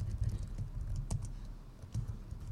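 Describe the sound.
Typing on a computer keyboard, a quiet run of soft, quick key clicks in uneven bursts, with a short pause before a final flurry.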